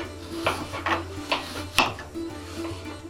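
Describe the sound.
A knife slicing an apple into thin slices for a kugel: four crisp cutting strokes in an even rhythm, then a few fainter ones, over a steady low hum.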